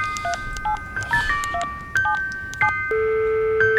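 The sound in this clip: A telephone number is dialed as a rapid series of short touch-tone beeps at varying pitches, followed by a longer steady tone, with no voices.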